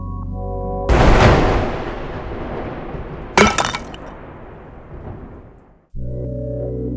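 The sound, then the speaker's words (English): A statue of the god Dagon shatters into pieces: a loud crash and then a second sharp impact, with debris that rattles and fades away between the two. “Man, I can't explain this one. I mean, shoot. Dagon's in pieces.”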